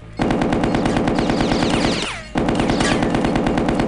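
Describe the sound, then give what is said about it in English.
Rapid, continuous machine-gun fire from a video game, heard as a dense, loud mechanical rattle. It drops out briefly near the middle, then resumes at full strength. “Machine gun. Machine gun.”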